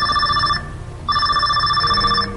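A telephone rings at a radio station as callers phone in. Two loud electronic ring bursts sound with a brief gap between them, and the second ring is longer than the first.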